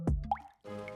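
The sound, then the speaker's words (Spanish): Water drops fall into assorted containers, two quick liquid plops close together, the second with a bright upward pitch sweep. “Ese es el sonido de una gota cayendo en varios envases que te regaló tu tía en Navidad.”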